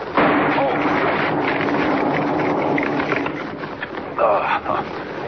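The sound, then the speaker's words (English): A dynamite blasting charge wired to a tree goes off in a Superman radio drama. A sudden loud blast swells into a sustained, noisy roaring rumble that holds for several seconds. “Wired that tree to a blasting charge. Blew up right in my face. Anybody else would have been shattered to bits. Good thing dynamite can't hurt me.”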